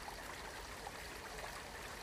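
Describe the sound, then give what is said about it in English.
Running water flows in a steady, faint, even rush, continuous and unbroken, with no other sounds above it. “As clear as this water that's running in the background that you can hear so crystal clear and flowing with ease”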